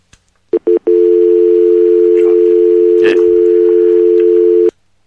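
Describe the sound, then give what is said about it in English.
Telephone dial tone after a dropped call on a call-in line: a few brief blips, then one loud, steady, unbroken tone that holds for about four seconds before cutting off abruptly. “Well, our caller was dropped.”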